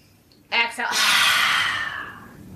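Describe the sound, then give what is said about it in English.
A forceful yoga lion's breath, exhaled through the mouth with the tongue out: a short sharp breathy burst, then one long, loud, hissing exhale that slowly fades away. “Roll the shoulders up, back, and down. And that's lion's breath.”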